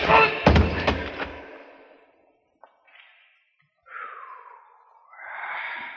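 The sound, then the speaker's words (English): Rock about the size of a baseball striking a man's head in a radio drama, a quick cluster of heavy thuds with a decaying tail, then a pause and short vocal sounds. “My hand closed over a rock almost as big as a baseball, weighing over half a pound. And I came slowly to my feet. Chipper whirled around, going for his gun. Hey, what's the devil? I aimed for his head.”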